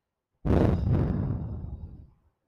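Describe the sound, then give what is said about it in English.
A deep breath is taken in a guided breathing exercise, heard as one long breathy rush that starts abruptly and slowly fades away. “So let's take our deep breath in through the nose. Hold it out through the mouth.”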